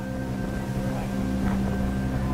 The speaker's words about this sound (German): Am nächsten Tag pflügt die Origo stundenlang durch die aufgewühlte See. Nachwirkungen eines abgezogenen Sturms.